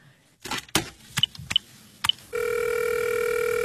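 Telephone sounds as a call is placed: several sharp clicks with short beeps, then a steady, continuous electronic ringing tone that holds at an even level to the end.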